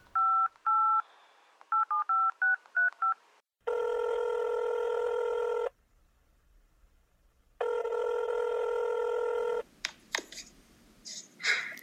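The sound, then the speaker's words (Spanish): Telephone dialing on an outgoing call: a quick run of many short touch-tone beeps, then two long, steady ringback tones separated by silence, ending with clicks and brief noises. “esto fue lo que pasó aquel día cuando llamamos a Florentino Pérez.”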